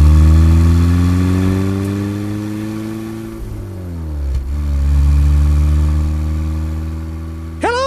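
A van's engine runs in a steady drone that dips in pitch and then climbs again as it revs, loud and continuous, with no voices over it.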